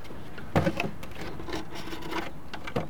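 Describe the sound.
Wooden rubbing and scraping as the outer cover is taken off a beehive with a couple of supers stacked on top, with a few light knocks and rasps and no talking.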